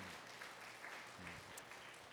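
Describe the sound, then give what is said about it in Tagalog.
An audience applauding during a church service, a faint, steady wash of clapping that holds at an even level without any clear individual claps or voices. “Palakpakan po natin ang Lord.”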